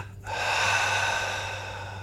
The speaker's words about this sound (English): Just one more time like that, double inhale. Hold, squeeze, and release.